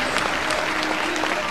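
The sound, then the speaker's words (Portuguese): Applause from a church audience: dense, steady clapping at full loudness throughout, with a faint voice underneath. “Aplauda o nome do Senhor Jesus.”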